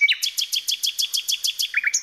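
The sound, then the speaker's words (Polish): A bird gives a quick, steady run of many high, sharp chirps, each a short bright note repeated in an even rhythm, with no other sounds. “Będziemy także słuchać ptaków.”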